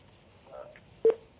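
A telephone line tone sounds after a caller's call dropped: a faint, soft tone, then a single short, sharp beep, with no voices.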